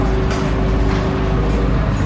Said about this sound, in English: That's me dropping it into gear, the RPMs have gone down.